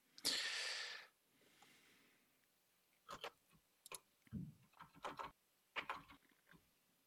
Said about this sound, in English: You'll have to send it to me then. I'll just type it out right now.